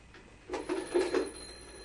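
A telephone bell rings in one short burst of a few rapid pulses, moderately loud above a faint steady background hum, with no voices.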